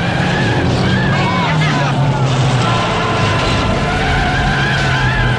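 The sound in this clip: Loud engine roar of a car swerving on a snowy road during a stock car race, a continuous dense rumble that stays steady throughout.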